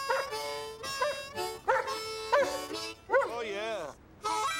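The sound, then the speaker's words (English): A German Shepherd police dog gives a series of tonal, whining barks and yips, about six bursts in all. Several of them bend in pitch, and there are short gaps between them. “Dooley's with his German Shepherd police dog, Jerry Lee.”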